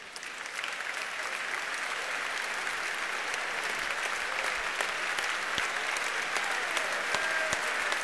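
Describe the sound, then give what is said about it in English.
A theatre audience claps and cheers for an actress being welcomed on stage, a dense, even wash of applause that stays loud and steady throughout. “So many endless cheers. We are spoiling you tonight.”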